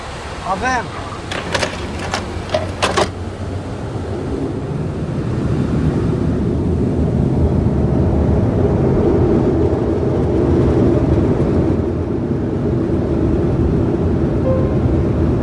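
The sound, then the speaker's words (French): A Concorde supersonic jet roars down the runway on takeoff with one engine on fire. A few short tonal bleeps come first, then a broad rumbling roar swells over several seconds and holds loud to the end. “Concorde s'élance à plus de 300 km/h.”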